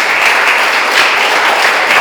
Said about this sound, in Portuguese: Aplauda Jesus por isso. É bonito. Faça isso.